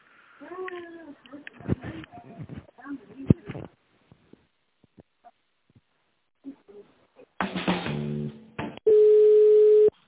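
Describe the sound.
A steady, mid-pitched telephone line tone sounds alone for about a second as a call to a company is put through to another person. It follows talk and a short burst of line noise.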